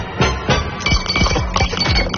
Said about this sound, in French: Allez, vos 6 glaçons, les voici.